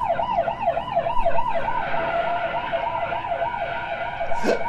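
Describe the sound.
An ambulance siren wails in a fast, regular up-and-down yelp, then settles into a steadier sustained tone over a low road-traffic rumble.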